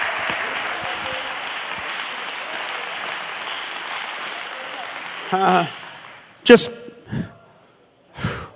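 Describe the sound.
Congregation clapping hands in church, a dense, steady run of applause lasting about five seconds, followed by a few short, louder bursts with voices.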